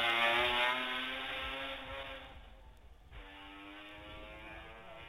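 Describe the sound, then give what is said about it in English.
Racing motorcycle engine cornering on a road course at Ballacrane, sounding faulty as it cuts while changing up a gear: a steady buzzing engine note with strong harmonics briefly drops out, then comes back. “And that machine to me didn't sound quite right there. As John Williams went out of the corner, it appeared to cut a little bit as he changed up a gear.”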